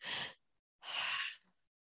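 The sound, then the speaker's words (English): Breathing shown as part of a breathing exercise: a short, airy breath, a pause, then a longer, soft exhale of breathy noise, both heard alone with silence around them. “Try and extend the out breath. So you're breathing out for longer than you breathe in for.”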